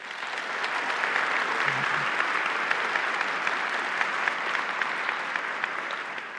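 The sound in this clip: Steady applause from a church audience welcoming a couple to the morning service, dense and even clapping that holds throughout without voices.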